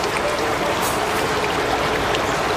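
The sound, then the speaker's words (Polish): Rushing river water tumbling over the rapid rock steps of the Tanew River in Poland: a constant, dense, hissing roar with no breaks, steady in level throughout. “Tutaj widać w pełnej okazałości rzekę Tanew i te słynne progi, które zostały zarejestrowane jako unikatowe zjawisko na liście UNESCO.”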